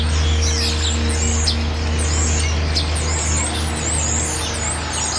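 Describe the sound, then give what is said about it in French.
Birds sing with quick, high chirps and tweets that repeat throughout, over a steady low engine-like rumble. “Les oiseaux ici ne chantent pas pareil. On dirait qu'ils ont un autre accent.”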